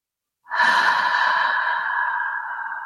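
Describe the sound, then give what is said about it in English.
A single long, calm breath out during a guided meditation, sounding like a soft sigh. A steady, fairly loud airy rush begins after a moment of silence and holds evenly for about two and a half seconds, slowly easing off. “Breathing out, calm, letting the breath guide you”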